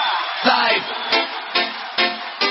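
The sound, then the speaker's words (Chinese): A concert crowd screams and cheers in a steady roar that swells in several sharp surges of whoops and yells. “让我听一下你的尖叫声好吗”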